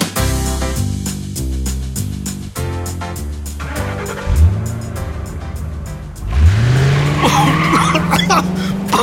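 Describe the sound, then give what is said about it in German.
Tires squeal as a car speeds off, two squeals over a music bed: a short one, then a long, loud screech that rises in pitch and holds. “Estella fährt ja einen ganz schön heißen Reifen. Naja, sie hat es eilig.”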